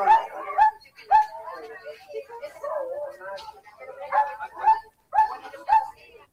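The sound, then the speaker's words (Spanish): Dogs bark, yip and whimper at a veterinary care event held in a stadium. Short barks come in repeated bursts, mixed with people talking. “Con su pañal, algunos con su bozal, y a medida que los van atendiendo, van guardando los perros.”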